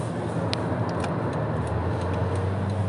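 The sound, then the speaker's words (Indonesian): Car cabin road noise from a car driving on the highway between Jakarta and Bandung: a steady, loud low rumble with constant hiss and a few faint ticks, with no talking. “gua merekam sambil anjir sambil nyetir Jakarta Bandung”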